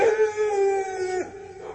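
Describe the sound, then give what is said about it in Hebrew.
A dog's drawn-out howl, a clear harmonic tone that holds steady and then drops briefly before trailing off. “חוץ מנביחות כלבים לא הייתה כל תגובה.”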